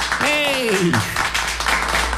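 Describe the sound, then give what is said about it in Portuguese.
Clapping from an audience marking a birthday. A man's voice speaks over the first half, and a steady patter of hands continues beneath and after it. “dá os aplausos, bem aplaudido”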